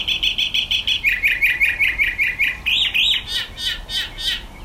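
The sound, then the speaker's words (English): A mockingbird (Senzontle) sings its morning song while perched outside a window in Mexico's high desert mountains: loud, high, bright notes in rapid repeated runs of chirps, switching between several distinct phrases, with no other sounds. “this recording of a Senzotle, or mockingbird, shared by Flynn Wendling”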